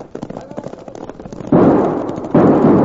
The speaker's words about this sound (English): Now get them Winchesters working! Them are army rifles!